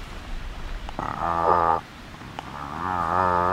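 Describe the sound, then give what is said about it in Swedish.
A human voice imitates the slow call of a cod, giving two drawn-out, low, croaking grunts with a buzzing, moo-like tone. The calls are separated by a short pause and heard alone, without talk. “En torsk, nu har den många olika läten, men du ska föra 2. Ett ljud är så här.”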